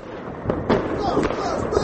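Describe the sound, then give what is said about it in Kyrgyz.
Colourful Chinese fireworks burst over Bishkek at night, a few sharp crackling bangs popping at irregular intervals over a continuous background rumble, with indistinct voices murmuring underneath. “Бишкекте түнкү саат 11:00 баштап эле Кытайдын кооз түстүү жардыргычтары тарсылдап жарылып турду.”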